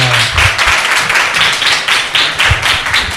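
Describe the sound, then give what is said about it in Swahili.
Audience applause at a youth prize-winner announcement: a dense, loud wash of many hands clapping, with a loose rhythmic pulse running steadily through the whole stretch. “Makofi kwa tafadhali.”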